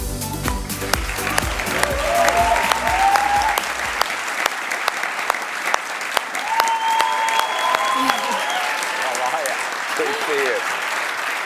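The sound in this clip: Audience applause at the Imagine Cup as Olympic snowboarder Chloe Kim is welcomed, sustained and full with a few cheers rising above it and a voice speaking under it at first.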